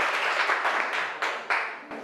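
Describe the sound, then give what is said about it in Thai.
A class clapping hands for a classmate: a steady, hissy wash of many claps with a couple of sharper bursts near the end, moderately loud and without talk. “เก่งมากปรบมือให้เพื่อนก่อน”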